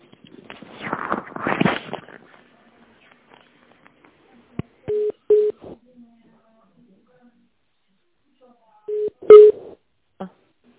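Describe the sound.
Telephone line tones mark a call being transferred. After a stretch of talk, short electronic beeps sound in a few pairs separated by long silences, with faint clicks in between.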